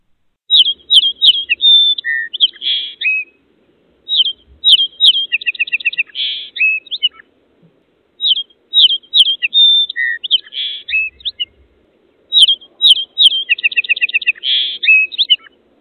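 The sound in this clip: Robin redbreast singing on a windowsill on an early spring morning: four bright phrases of high chirps, whistles and quick trills, each a few seconds long and set apart by short pauses.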